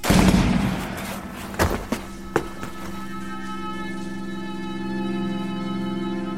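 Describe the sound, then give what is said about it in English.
Firing-squad gunfire from an execution: a burst of noise, then a few short, dull cracks in quick succession, giving way to a sustained low droning tone that continues alone. “Sadek Gobzadeh, former foreign minister, now accused of plotting the assassination of Ayatollah Khomeini, is executed by firing squad.”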